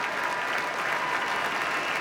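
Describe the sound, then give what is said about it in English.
Applause from a concert audience giving a standing ovation to the Boston Symphony Orchestra and its soloists: a dense, steady wash of many hands clapping, even in loudness and without pauses. “Our artists bowing to the audience now, who are offering a standing ovation.”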